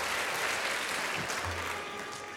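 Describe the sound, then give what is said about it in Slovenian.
An audience claps from start to finish in dense, fairly faint applause that stays even and slowly tapers slightly toward the end. “Zdaj me sicer najbolj skrbi, zakaj ploskajo”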